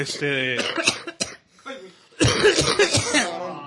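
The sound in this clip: A person's cough, used as a joke ringtone, comes as a few rough, breathy bursts in close succession after a stretch of voiced sounds.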